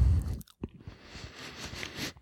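Crunchy chewing of a bite of very hard cheese with a few small holes, with sharp biting crackles at first and then steady, softer mastication, quiet and without talk.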